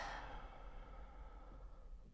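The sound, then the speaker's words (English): An audible exhale after a held breath during a breathing exercise: a soft, breathy rush of air that fades gradually over about two seconds, quiet and alone. “Breathe in through the nose for 4. Hold your breath for 4. Audible exhale for 4.”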